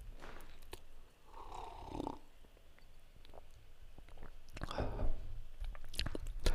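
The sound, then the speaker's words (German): A person takes a quiet sip of a drink, with soft slurping and swallowing mouth sounds in a few short bursts. “Oh, einen Schluck trinken.”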